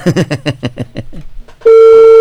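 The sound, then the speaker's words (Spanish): Ringback tone on a telephone line as a call rings through on the other line: after a short stretch of voice, a steady, loud electronic tone starts abruptly and holds unbroken to the end. “si le llamas, pues nos pueda contestar, ¿no? No sé. Ahí está ya timbrando.”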